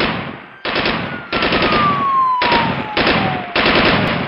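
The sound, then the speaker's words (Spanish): Sustained machine gun fire from armored gunmen in front of a bank during a shootout with police, loud and continuous in several long rapid-fire bursts with no talking. “lanzaban fuego de ametralladora”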